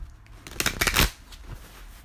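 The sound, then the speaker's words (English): A deck of Archangel oracle cards is shuffled by hand: a short, papery riffling flutter swells for about half a second, stops, and is followed by a faint soft rustle. “I use Doreen Virtue Archangel Oracle cards. They're amazing.”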